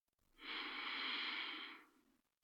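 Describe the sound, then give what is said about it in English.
A single deep, slow inhalation: a soft, airy breath in that swells, holds for over a second and then fades. It is faint and heard alone. “Just a nice breath in.”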